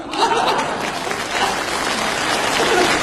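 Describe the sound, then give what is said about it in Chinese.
Sustained applause from the women in a live audience: dense, even clapping that holds at a steady loud level for about three seconds without letting up. “因为女同胞的掌声比较持久。”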